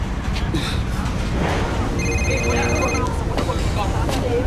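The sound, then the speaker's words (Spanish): A telephone rings with steady, high electronic tones through busy background noise, with people talking throughout. “Teléfono, ¿cuál es? ¡Contesten!”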